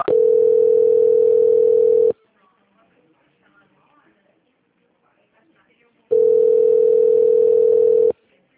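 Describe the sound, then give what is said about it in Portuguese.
A telephone tone plays while a bank call is transferred to quality control: two long, steady, single-pitched tones of about two seconds each, separated by a silent gap of roughly four seconds. “peço que a senhora aguarde só um momento na linha, que eu vou transferir para o controle de qualidade do banco”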